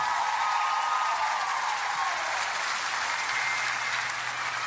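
Audience applause for a performer at the close of a show, a steady, even wash of clapping that stays at a constant moderate level throughout.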